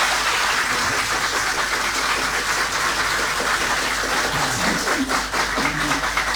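Studio audience applause at a concert in a large studio in Osijek: broad, continuous clapping keeps up at a steady, full level for the whole stretch.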